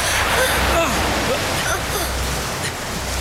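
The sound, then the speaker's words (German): Rising floodwater rushes in a dense, steady roar that stays loud throughout, with a voice faintly audible over it. “Die Flut ist nun nicht mehr aufzuhalten.”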